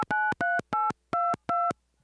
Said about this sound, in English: I know! I will just call over to the astronaut village.